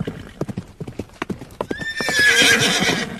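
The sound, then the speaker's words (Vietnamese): Horse hooves clip-clop in a brisk, uneven rhythm, then a loud, high whinny rises over the continuing hoofbeats. “Từ đằng xa, tiếng người ngựa vọng về nghe thật oai hùng.”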